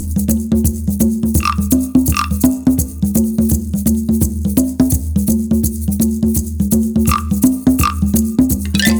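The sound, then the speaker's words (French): Frogs croaking in a loud, steady chorus of low, rhythmic pulsing calls, with occasional higher chirps over the top, continuing without a break. “Puis vinrent les grenouilles.”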